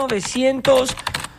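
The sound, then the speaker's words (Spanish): Rapid keyboard typing used as a radio sound effect: a brief, loud burst of clicking keystrokes layered with voiced tones. “Y vamos a teclear”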